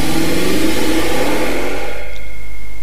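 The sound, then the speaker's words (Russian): A street-racing car's engine roars loudly as its owner revs it, a continuous, heavy growl whose pitch sweeps downward as the revs wind off. “теперь слушай мой звук, как я завожу свое авто.”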